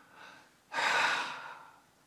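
A person breathing out: one soft, airy exhale, quiet and alone, with a fainter, lighter breath just before it.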